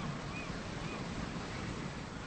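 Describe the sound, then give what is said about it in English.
Ocean waves rolling onto the shore form a continuous, broad, even roar of surf that keeps a constant level throughout. “Later at the house, she's painting outside as Detective Crawford looks out over the ocean. It's beautiful here.”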